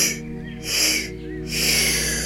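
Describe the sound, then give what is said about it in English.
Mouth inhales as part of a meditation breathing exercise: three breathy, airy intakes follow one another with short quiet gaps, the first cut off at the start, without talk. “We are going to inhale 3 times through the mouth, which will sound like this.”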